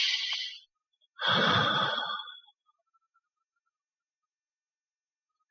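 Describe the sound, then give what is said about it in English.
A deep breath taken during a guided tapping session for anxiety: a short airy inhale, a brief pause, then a longer, fuller sighing exhale before silence. “let's take a deep breath in and out.”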